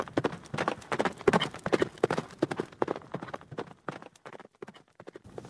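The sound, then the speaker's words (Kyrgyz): A spooked horse gallops toward home, with many rapid, uneven hoof clops that grow softer and sparser near the end. “Жылкы үрккөн бойдон үйгө бет алды.”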